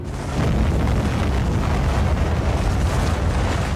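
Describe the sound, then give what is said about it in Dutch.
A deep, continuous roar of an atomic bomb exploding over Hiroshima in 1945, after being dropped from an airplane. The blast rises quickly from a lower rumble into a loud, dense wall of noise that holds steady throughout. “Het vliegtuig, de Enola Gay, vliegt richting Hiroshima en laat boven de stad een kernbom vallen.”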